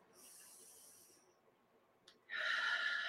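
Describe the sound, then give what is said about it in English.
A deep breath in during a guided breathing exercise: a soft, airy hiss at first, then after a quiet gap a louder, steady rush of breath that lasts to the end. “take a deep breath and let it out. Deep breath in.”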